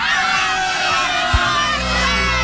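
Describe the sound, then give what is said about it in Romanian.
A large crowd of supporters shouting a rallying chant for the city of Galați in unison: a loud, dense roar of many voices sustained throughout, with a brief sharp accent near the middle. “3, 2, 1 și strigăm Galați e forță!”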